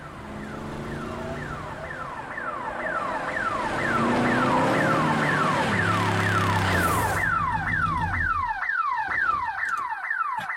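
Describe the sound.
A car alarm blares from a car being stolen: loud, rapidly repeating sweeping tones over a low rumble, switching partway through to a faster, higher whooping pattern that carries on to the end.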